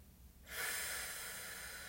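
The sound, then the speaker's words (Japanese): During a slow relaxation breathing exercise, a person draws a deep breath, heard as a steady airy rush that starts abruptly and holds for over a second with no talk. “イライラモヤモヤはね息と一緒に吐き出しちゃってデトックスしてください吐き切るはい最後吸って吐いて終わります”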